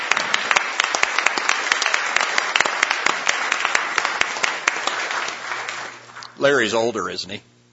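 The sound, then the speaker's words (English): Applause from a Senate chamber welcoming a guest in the gallery: steady, dense clapping that holds for about six seconds before a voice speaks briefly as it ends. “I'd ask you to help me welcome my twin sister, Lori, up in the gallery.”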